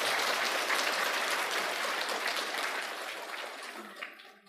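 Audience applause at a Buddhist teaching session, a dense, sustained wash of clapping from many hands that holds steady for several seconds and then fades out at the end.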